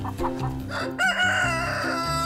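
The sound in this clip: Hens clucking in short, quiet harmonic calls, then a longer, sustained crow-like call that carries to the end, with no talk.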